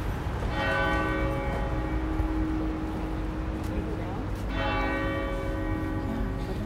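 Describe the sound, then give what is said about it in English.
Church bells of one of the main basilicas in Rome toll in two clear, resonant strikes a few seconds apart, each leaving a long ringing decay over a steady low background rumble. “These are the bells of Maria Maggiore, which are one of the main churches in Rome.”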